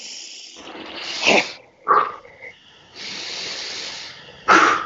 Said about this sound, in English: So it's big breath in.